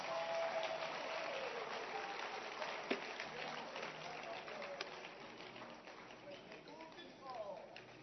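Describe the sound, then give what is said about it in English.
A church audience claps hands during a worship service, a faint, steady patter of applause with a couple of sharper single claps standing out and voices audible underneath. “Clap your hands. Let's receive her.”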